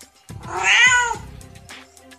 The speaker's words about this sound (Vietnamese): Mèo con bị đè dưới móng vuốt to, đáng thương hề hề kêu lên.